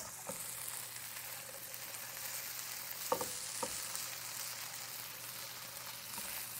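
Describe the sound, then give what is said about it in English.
Potatoes sizzle and fry in a hot pan with a steady crackling hiss. A few brief scraping knocks stand out as they are stirred. No voices. “Get rid of this. Stir up these potatoes a little bit more.”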